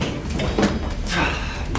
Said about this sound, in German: Die Fahrstuhltür schließt sich direkt vor seiner Nase. Da kann er noch so oft auf den Knopf drücken.